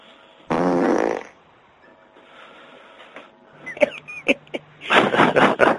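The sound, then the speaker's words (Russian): Fart blown into a telephone receiver during a prank call, one loud, buzzing burst lasting under a second, followed by quieter clicking and rustling noises. “Тебе в это пёрнить нахуй в утробку. Шутник, шутник. Ну и что? И все, в трубку пернул”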